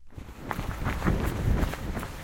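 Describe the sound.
Footsteps of a young man jogging on a mountain run at about 2000 metres altitude, a steady patter of many quick steps with scuffing and crunching underfoot, fairly loud and continuous with no voices.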